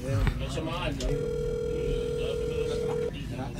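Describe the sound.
A telephone ringback tone plays on a call that goes unanswered. It is a steady, even tone lasting about two seconds, with a voice briefly heard just before it.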